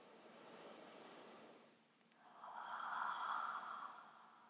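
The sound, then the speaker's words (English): A deep cleansing breath, inhaling and exhaling, heard as two long, soft, airy phases separated by a short pause, the second fuller and steadier, with nothing else around it. “the best thing that we can do is to pause and practice a cleansing breath. Deep inhalation and exhalation.”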